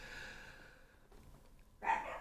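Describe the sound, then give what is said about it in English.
A dog barks once, a short, sharp burst near the end that follows a quiet stretch of faint low hum. “hello, the dogs are saying hi.”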